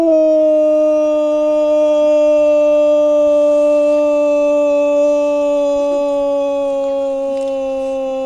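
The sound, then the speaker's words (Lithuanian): A wolf's long, unbroken howl holds a clear, steady tone for about eight seconds, its pitch sinking slightly toward the end, loud and alone with no talk. “Tai dabar skambinsim vilkam. Paklausom, tada pamėgdžiasim.”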